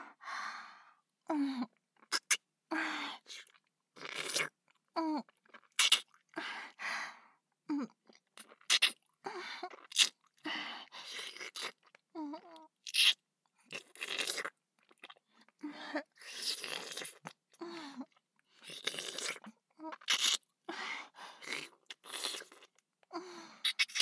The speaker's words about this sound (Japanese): それでは、いただきます。